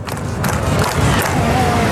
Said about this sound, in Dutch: Ja, of eerder geklapt, ritmisch geklapt.